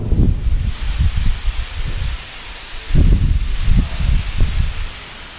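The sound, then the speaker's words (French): Storm wind outside, with loud, gusty low rumbling that buffets in irregular surges, dropping off briefly before swelling again in several strong bursts. “Il y a une grosse tempête là-dehors.”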